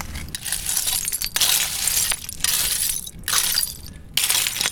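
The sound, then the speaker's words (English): Rusty iron metalwork scraped across the Thames foreshore makes gritty, clinking scrapes. Repeated loud bursts of rattling, jangling metal come with short pauses between them. “And I'm just gonna scrape a little bit of it around so you can hear the sound of the metalwork.”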